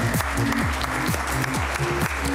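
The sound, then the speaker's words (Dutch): Audience applause at the Green Village while hail clatters on the roof: a dense, steady crackle of clapping at constant loudness, with low gliding tones that sweep downward and repeat. “En het applaus overstemt een beetje de regen, of moet ik zeggen hagel, die klettert hier op het dak van de Green Village.”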